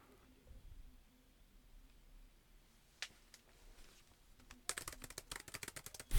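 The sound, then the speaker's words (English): Furious typing on a keyboard: a faint lone click or two, then a rapid, uneven run of many soft keystrokes near the end over a quiet low hum. “As the professor furiously types down a note for himself to remind himself.”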